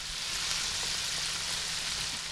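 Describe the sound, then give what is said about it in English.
Bluegill and crappie pieces coated in flour and seasonings frying, giving an even, bright sizzle that hisses steadily and fairly quietly throughout, with no talk. “coats them in flour and other seasonings before frying them for a feast.”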